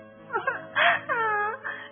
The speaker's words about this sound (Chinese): 小兔急哭了。